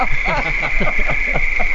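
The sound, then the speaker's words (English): A cricket chirping sound effect forms a steady high trill that runs unbroken throughout while people talk over it. “I was afraid I would get crickets this time. do we have crickets here?”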